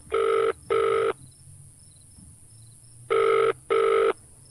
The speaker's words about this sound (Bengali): বুথের টেলিফোন থেকে শঙ্খ আবার ডায়াল করে সুচরিতার নাম্বার।